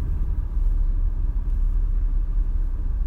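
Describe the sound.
Steady low rumble of road traffic heard from inside a car during a slowdown, a continuous dull engine and tyre drone with no voices.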